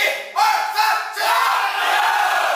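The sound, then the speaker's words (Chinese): A stadium crowd chants in unison for the Shenyang team at a match against Harbin, a loud wall of massed voices rising in repeated drawn-out shouts. “看台上，他的家人和队友也在特意赶来为他加油。”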